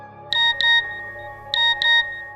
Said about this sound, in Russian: пока мне не прошла смс-ка